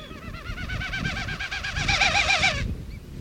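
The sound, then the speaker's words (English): Wilson's snipe winnowing in a swooping aerial display, wingbeats forcing air across its spread tail feathers: a hollow, rapidly pulsing, tremulous hooting whistle that swells louder toward the end, then cuts off abruptly. “During a swooping aerial display, this snipe spreads its special tail feathers and beats its wings to force air across the tail. The effect is, well, this.”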